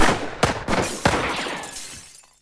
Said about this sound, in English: He shot the gun right out of my hand!